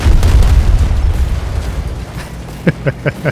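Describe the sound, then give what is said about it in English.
Video game helicopter crashing into a light pole and flipping onto its back: a heavy, rumbling boom that slowly fades, then a quick series of sharp knocks. “I hit the pole. I think I hit the light pole. Oh, yeah. It's ridiculous because like the tanks knock it over, but the stupid helicopter flipped on its back.”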